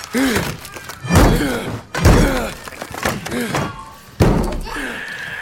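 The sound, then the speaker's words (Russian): Three heavy thuds ring out as a Varangian axe splits a board of a wooden door, each with a cracking edge. A voice speaks in the gaps between the blows. “Варяжка расщепила одну из досок двери.”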